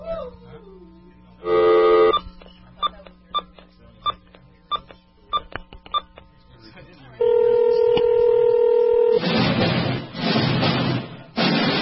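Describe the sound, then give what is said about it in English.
Touch-tone telephone dialing: one longer tone, then a quick run of short, evenly spaced keypad beeps, followed by a steady held tone and a burst of loud, noisy sound at the end. “We're gonna phone the movie man, because it's 10 o'clock.”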